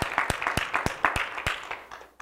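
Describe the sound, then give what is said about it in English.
A church audience gives the Lord a hand clap during a service. Sharp, scattered handclaps ring out at a moderate level with an uneven rhythm and thin out toward the end. “Give the Lord a hand clap. Hallelujah. Give the Lord a hand clap.”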